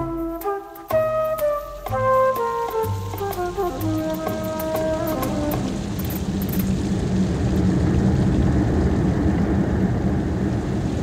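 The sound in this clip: Heavy rain in bad weather sets in as a dense, steady hiss, rising over a few descending musical notes in the first half and then continuing alone, loud and even.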